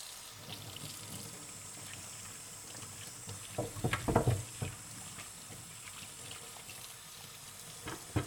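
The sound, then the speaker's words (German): Vegetables washed under running tap water: a faint, steady hiss of flowing water, with a brief cluster of louder splashes and knocks partway through. “ich werde jetzt einmal das Gemüse waschen.”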